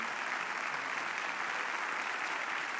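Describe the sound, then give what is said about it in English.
Audience applause as a church audience across all campuses stands to welcome a guest pastor to the stage: dense, steady clapping that holds even and loud throughout without a break. “I'm going to ask all of us, all campuses, let's just stand up and warmly welcome Thank Pastor Jim Laffoon. Come on, let's give it up for him.”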